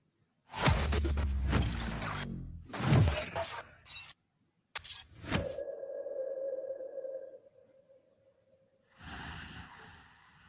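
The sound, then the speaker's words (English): A trailer for a new film plays, loud whooshing, sweeping bursts followed by a sustained, sonar-like pinging tone that fades, then a short silence before another dense burst of sound. “Without further ado, we will play the trailer. There we go.”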